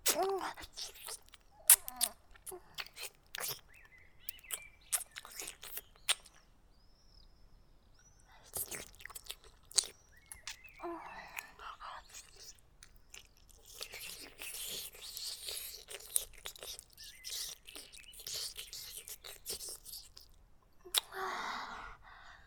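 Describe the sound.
Wet, clicky mouth sounds of someone eating and chewing a thick, strong-tasting, fishy, cheese-like food: many irregular soft smacks and bites, with faint breathy sounds between them.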